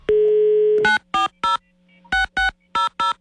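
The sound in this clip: Telephone dialing: a steady landline dial tone is cut off by several short, loud keypad beeps in an uneven rhythm, pressed in small groups with pauses between them.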